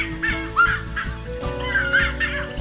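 Bird calls from a yipaca, a bird in a Guarani legend about a human turned into a bird, used as a sound effect: a few short, nasal, goose-like honking calls in quick irregular succession.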